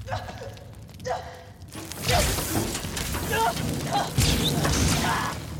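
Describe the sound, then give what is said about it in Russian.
A fighter spacecraft crashes into a shaft and explodes. A few scattered knocks are followed by a sudden loud, rumbling roar of blast and debris that carries on to the end. “Истребитель, покачнувшись, падает в шахту, и там взрывается.”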